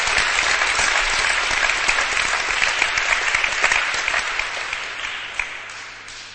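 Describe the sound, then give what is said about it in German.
Sustained applause from a crowd at a Christian worship meeting, a dense, even clatter of many hands that holds steady and then eases off slightly toward the end. “Give the Lord one more hand.”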